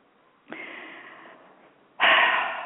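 A deep breath: a soft, airy intake with a faint whistling tone, then after a short gap a louder, broad rush of breath that runs to the end, with no talk.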